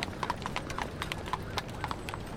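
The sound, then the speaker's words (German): Hooves clip-clop steadily as horse-drawn carriages carrying couples pass on an autumn day, many fairly faint, even strikes in a continuous trotting rhythm. “Pärchen sitzen in zahlreichen Kutschen. Eng aneinander gekuschelt reiten sie an mir vorbei.”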